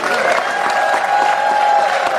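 Applause and cheering from an audience at a live Christmas event, celebrating a couple. Dense, steady clapping runs loud and unbroken throughout, with scattered cheers mixed in.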